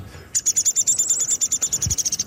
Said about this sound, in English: Downy woodpecker. He's sort of a chatter to some extent too. And the house finches are chirp here.